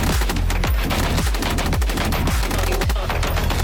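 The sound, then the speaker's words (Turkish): A PMT-76 machine gun fires from a mobile vehicle platform during testing, a loud, continuous barrage of rapid gunshots with sharp, repeated blasts that hardly pause. “geliştirilen mobil araç platformu PMT-76 makineli tüfekle entegre edildi. Test görüntüleri MKE tarafından paylaşıldı.”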